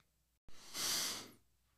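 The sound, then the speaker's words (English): A single deep breath, a broad airy hiss that swells and then fades over about half a second, heard alone after a short click. “Your little deep breath there caught me off guard.”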